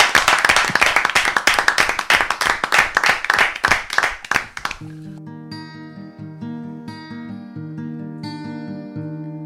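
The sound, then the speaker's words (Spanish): Loud applause for a live music performer, with dense, steady clapping for about five seconds before it gives way to sustained musical tones. “un fortísimo aplauso para Mon Cancelas.”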